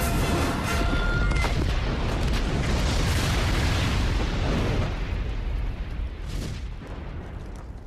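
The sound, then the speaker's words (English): An explosion ignites insect gases in the tunnels of a nest, and fire tears through it. A loud, sustained, roaring blast rumbles deeply, then slowly fades. “Cooper's dragged out as the explosion lights the insect gases in the tunnels, and fire tears through the nest.”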